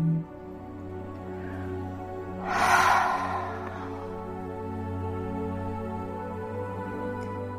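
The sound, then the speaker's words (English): A slow exhale with a soft breathy ha sound, a single hushed swell of air over steady, sustained background tones. “Breathe in and breathe out slowly with a ha sound. Breathe in.”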